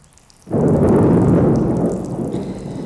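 Heavy rain with thunder bursts in suddenly after half a second as a loud, dense rumbling downpour. It continues steadily and eases slightly toward the end.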